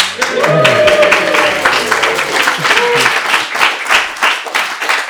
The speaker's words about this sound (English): That canned audience sound effects are great, aren't they?